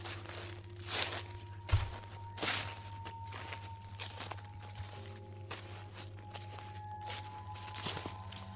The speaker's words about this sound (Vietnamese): Ở ngoài sân, hình như có tiếng chân người đang đi lẹt xẹt.